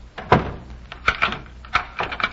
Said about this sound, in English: Well, can't you wait until I close the door?